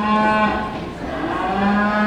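A cow moos in two drawn-out, low, buzzy calls with a brief dip between them, loud and alone.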